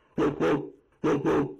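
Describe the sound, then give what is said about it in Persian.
A garden dog barks while attacking, giving four deep, rough barks in two quick pairs separated by a short pause. “اون سگه چیه؟ وای خدای من، اون از سگ خیلی میترسم. زود باشیم، باید فرار کنیم. بله، بدین ترتیب بود که سگ باغ به سمت اونها حمله بر شده بود.”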